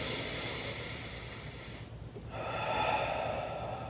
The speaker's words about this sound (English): So if I take a deep breath in, I should be able to elevate my hand up and then back down.